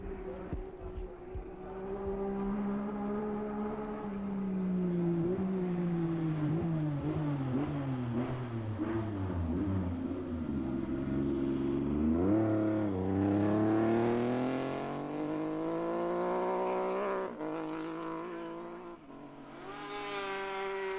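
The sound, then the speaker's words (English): A BSA racing motorcycle's engine roars through the Ramsey Hairpin. Its loud, continuous note steps down in pitch through the bend, then climbs steadily as it accelerates away. “for British bike enthusiasts, the sound of Malcolm Lucas's BSA at Ramsey Hairpin.”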